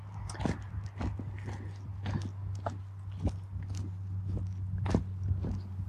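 Footsteps of someone setting out on foot, crunching irregularly over a gritty surface, many steps at an uneven pace over a low constant hum.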